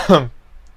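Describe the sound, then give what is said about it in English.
A single short cough, a brief voiced burst that dies away quickly into near silence. “pardon me for coughing for some reason.”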